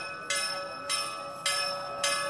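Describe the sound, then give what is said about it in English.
Temple bells ring for evening prayers in Adarshnagar: four bright strikes at an even pace, each one ringing on into a steady tone until the next. “As the temple bells ring in Adarshnagar, people gather for evening prayers”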